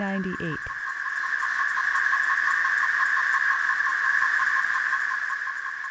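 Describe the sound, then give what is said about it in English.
Male Major periodical cicadas give calling and courting songs, a loud continuous high-pitched buzzing drone with fine rapid pulsing. A brief human voice is heard at the very start. “Calling and courting songs of the Major Cicada tretisson.”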